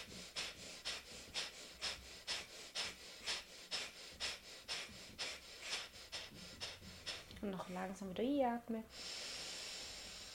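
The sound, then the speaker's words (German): Quick, rhythmic breathing-exercise demonstration in which a person breathes in and exhales: many short, evenly spaced breaths, then a brief spoken voice, then a long steady hissing exhale to close. “Du lässt jede Emotion durch das Ausatmen bis raus. Es geht quasi, du atmest ein.”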